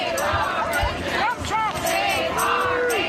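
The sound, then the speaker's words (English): A protest crowd at Cabrillo National Monument in San Diego, rallying against mass firings of National Park Service employees. Loud, continuous shouting and chanting voices blend into a dense babble with a brief dip partway through. “crowd gathered at Cabrillo National Monument to protest the Trump administration's mass firings of National Park Service employees.”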